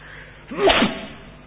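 A single short, sharp sneeze bursts out once during a religious lecture, a sudden muffled burst that rises and fades within about half a second against faint background hiss.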